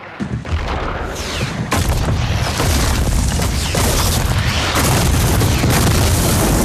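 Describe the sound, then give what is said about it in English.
Cannon fire, with the shots exploding as they land short of rows of samurai: a dense, sustained, deep booming rumble that stays loud throughout, with no clearly separate blasts. “Smoke billows from the cannons. The shots make landfall just yards shy of the rows of samurai.”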